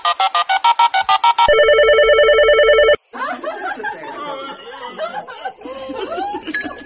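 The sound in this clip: A telephone call rings in quick repeated pulses, then gives way to a steady held tone that stops abruptly, followed by a busy jumble of noise with some laughter.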